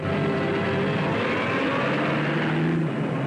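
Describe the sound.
Heavy city traffic as a car drives out onto the street and a city bus pulls away. A dense, loud, continuous rumble of engines holds steady throughout, with no distinct separate events.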